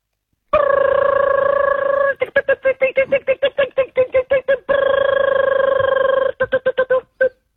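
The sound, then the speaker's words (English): A voice imitates a dial-up internet modem, loud and alone. Long buzzy, sustained tones alternate with bursts of rapid staccato pulses, ending in a few short blips. “Your reverse secret sound is the dial-up internet.”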